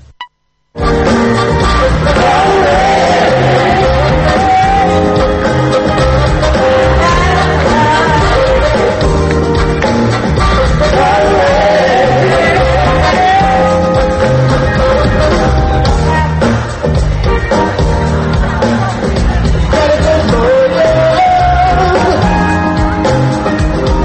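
Live concert atmosphere at Kalemegdan in Belgrade, with dense, loud music and crowd sound running continuously without a break after a brief quiet opening.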